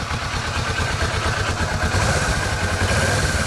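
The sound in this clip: A Kawasaki Vulcan motorcycle engine runs under light throttle, kept under the noise limit, giving a steady, loud, low rumble with slight mechanical clatter and no sharp rev peaks.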